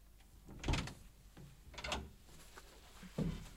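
A door being opened in a radio crime drama: three distinct clunks and rattles spaced roughly a second apart, moderately loud against a quiet background.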